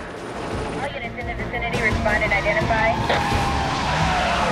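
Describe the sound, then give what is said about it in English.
Marked police cars screech to a halt on a Miami street. Tyres skid under a dense, loud roar of engines that swells after the first second and stays strong to the end. “A number of marked police cars screech to a halt by the man's body, while the chopper circles overhead.”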